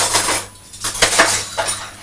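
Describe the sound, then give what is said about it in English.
Metal spoons, sized between a teaspoon and a dessert spoon, clatter as they are handled and moved into a compartment. Many bright clinks and rattles come in quick, uneven bursts. “The spoons that are much larger than a teaspoon, they're smaller than a dessert spoon.”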